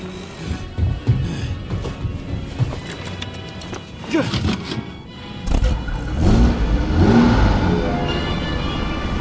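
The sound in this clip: A vehicle engine is started and revved, rising to a loud, steady roar in the second half, with people talking over it.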